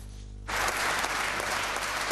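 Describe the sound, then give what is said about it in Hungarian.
Standing applause from Vojvodina party members as the province's new statute is adopted. A low hum runs for half a second, then a dense roar of clapping bursts in and holds steady. “Miközben a vajdasági pártok állva tapsolták meg a tartomány új statútumának elfogadását”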